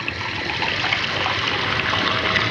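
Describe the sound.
Water is poured into a glass to top up a drink mixed with lemon and something sharp, giving a steady, even trickling hiss that runs unbroken from start to end.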